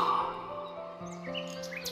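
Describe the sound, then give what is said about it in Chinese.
A nightingale sings a light, lilting tune: bright, high chirps and trills flit across the second half over a steady, sustained tonal backdrop. “为了表达感谢，夜莺特别唱一首轻快悠扬的曲子来答谢死神。”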